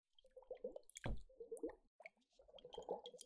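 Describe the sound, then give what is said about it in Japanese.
Soft gurgling and bubbly popping as air moves through the special liquid inside a shaken glass ice globe, a few quiet squishy bursts separated by brief gaps. “不透液の中を空気が移動してポコポコと音がするのも特徴ですね”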